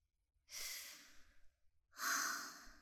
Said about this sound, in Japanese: ほら、深呼吸して。